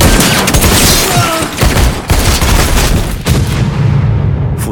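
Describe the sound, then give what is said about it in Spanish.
Loud gunfire aimed toward a balcony: a dense, noisy volley of shots with a few sharp cracks standing out over continuous rumbling, the burst sustained at high level throughout. “Gandía se gira y dispara hacia el balcón”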